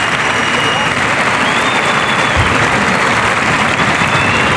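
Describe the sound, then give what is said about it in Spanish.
A bullfight crowd gives an ovation after the bull collapses at the matador's feet. Thick, continuous applause fills the whole stretch at a steady, loud level. “Bueno, pues el público le ovaciona.”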